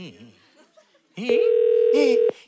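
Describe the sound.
Telephone ringing tone from an outgoing call that goes unanswered: one steady buzzing tone lasting about a second, rising abruptly after a stretch of quiet voices and cutting off sharply.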